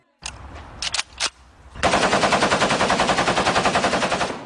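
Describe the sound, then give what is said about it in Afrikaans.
R5 automatic rifles fire at a police shooting range outside Pretoria: a few separate sharp shots ring out, then a long, loud, rapid burst of automatic fire rattles on in an even rhythm to the end. “Suid-Afrikaanse polisielede oefen met R5 outomatiese gewere by 'n skietbaan buite Pretoria.”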